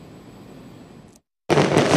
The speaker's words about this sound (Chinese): 璀璨的烟花在维多利亚港上空绽放